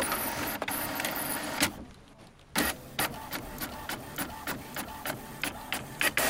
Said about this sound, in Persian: 5 تا از همکاراش دور پرینتر اداره جمع شده بودن تا اینکه یک برگ کاغذ از پرینتر بیرون میاد.